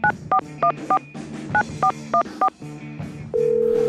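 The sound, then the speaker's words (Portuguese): Touch-tone keypad beeps as a telephone dials an international number: eight short, evenly spaced tones in two quick groups, followed by a steady tone that begins near the end. “Discando aqui. Código internacional.”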